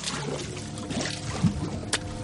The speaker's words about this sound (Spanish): Golpea la pared con el hombro. Cae en una galería inundada. Toca el líquido.